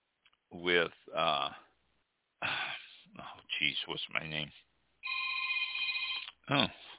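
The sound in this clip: A telephone rings with an incoming call on a live radio phone-in: a single steady electronic ring lasting over a second, set between stretches of people talking.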